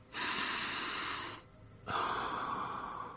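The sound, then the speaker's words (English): A person with a bad cold and sore throat breathes deeply during a chest examination: two long, loud, airy breaths separated by a short pause, with no talking. “I'll listen to your chest now. Breathe deeply.”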